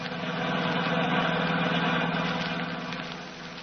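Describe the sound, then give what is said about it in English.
A car drives along a road through the San Bernardino Valley in California, giving a steady, even engine hum that swells slightly early on and then eases off toward the end. “We find them now driving back to Hollywood through the beautiful San Bernardino Valley.”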